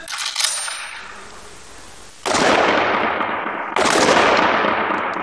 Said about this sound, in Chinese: 开始射击。